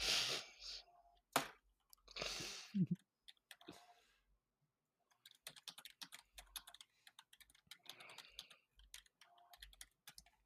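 Computer mouse clicking while a folder is opened: after a few louder bursts early on, many quick, sharp, dry clicks follow in an irregular patter with short gaps between them.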